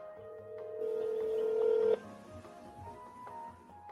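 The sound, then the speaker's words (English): Telephone dialing tones as a call is placed: a steady tone rises slightly in level and cuts off abruptly, followed by a few fainter short beeps. “So I'm going to call in here. I'm going to stop sharing. Okay. Let's dial up here.”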